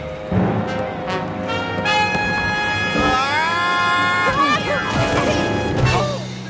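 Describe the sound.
Cartoon slapstick crash in Pinky and the Brain as Pinky steps on Brain's coattail and Brain trips and falls, a loud smash and thwack amid music and animated character voices.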